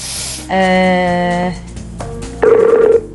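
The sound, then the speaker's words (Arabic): Telephone tones sound while a call is being placed: a steady electronic ring tone lasting about a second, then a pause and shorter tones, with a faint hiss between them. “عبد المنعم نحن بدنا نتصل فيه”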